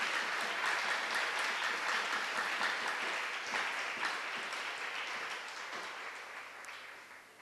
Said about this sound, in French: Acclamons le Seigneur. Let's clap for the Lord.